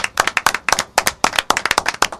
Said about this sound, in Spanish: Un aplauso para Andrés.